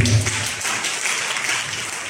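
Congregation applauding to acclaim the Lord during a church sermon: a short burst of dense, steady clapping lasting about two seconds.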